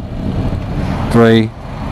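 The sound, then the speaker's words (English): A 2019 Honda NC750X motorcycle engine downshifting under braking gives a brief, rising rev blip over steady wind rumble, then drops back to the low road roar. “Look, is it going to kick down for me as well? Waiting for it to go down a few gears. Not going to, is it? There you go, bit of braking.”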